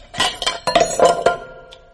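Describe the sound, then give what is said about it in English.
A spoon clinking against a basin: a quick run of light, bright metallic taps with a short ringing tone after each strike, fading at the end, with no talking. “I'll hold the basin and you take the spoon. That's right. Take the spoon.”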